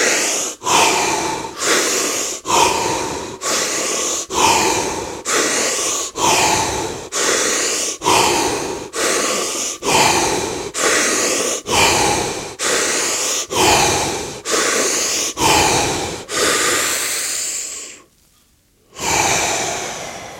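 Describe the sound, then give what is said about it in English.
Deep breathing during a guided breathing exercise, with many loud, rhythmic breaths in quick, even succession. A short silent gap near the end is followed by another breath. No talking. “And we go back into the breath now.”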